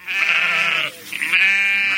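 Sheep bleat on a southwest Virginia farm: two long, loud, wavering bleats separated by a brief pause, heard alone without talk.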